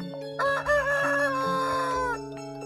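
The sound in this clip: A rooster crows once, a long, loud, tonal call that holds steady before trailing off at the end.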